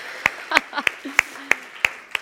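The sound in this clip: Steady single clapping at a gathering: about seven sharp, evenly spaced claps with short faint vocal sounds between them.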